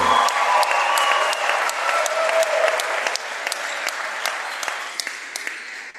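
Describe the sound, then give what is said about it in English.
Applause from basketball fans at a boys' basketball senior recognition: dense, steady clapping with sharp individual claps standing out, holding at a moderate level and easing slightly toward the end, with no talk. “And fans, let's have one more round of applause for number 11, Marcus Terwilliger.”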